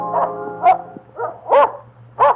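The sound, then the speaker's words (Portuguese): A dog barks furiously in a rapid series of short, sharp barks. The later barks hit harder and louder than the first ones, over a low, steady background hum. “quando seu fiel cão se pôs a ladrar furiosamente”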